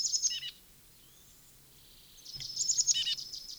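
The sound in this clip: A junco or titmouse trill, with high, rapid chattering notes in two separate bursts: a short one at the start and a longer one after a quiet pause.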